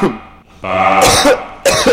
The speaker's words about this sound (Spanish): Aquí la tos de verdad.